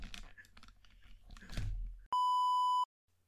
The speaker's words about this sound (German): Ich werde angerufen. Was ist das denn? Ich gehe mal kurz ran.